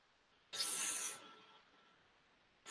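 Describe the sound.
A voiceless English TH fricative, made by blowing with the tongue between the teeth: one steady breathy hiss lasting under a second, then quiet, with a new onset at the very end.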